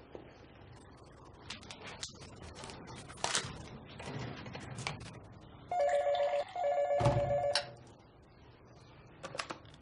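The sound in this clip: A telephone rings in two steady electronic bursts, preceded by scattered clicks and knocks.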